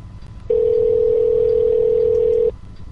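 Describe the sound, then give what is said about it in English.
A telephone dial tone hums at one steady pitch for about two seconds while a call is being dialed, starting and stopping abruptly over a low background rumble. “I was dialing people, it's just it wasn't ringing for the other guy. I tried three times.”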